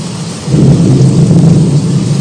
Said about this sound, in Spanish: Está buena la lluvia, paisano. Está fresco. La lluvia. Mucho viento.